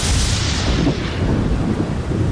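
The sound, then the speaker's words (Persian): Steady rain pours as a continuous, fairly loud hiss over a deep low rumble, unbroken from start to finish with no voices. “باران می‌بارید.”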